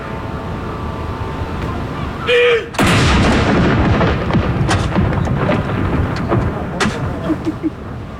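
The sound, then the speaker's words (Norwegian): A cannon firing during a solemn ceremonial salute at Akershus Fortress, with onlookers gathered: one loud, sudden boom followed by a long rolling rumble and crackling decay. “Andre kanon!”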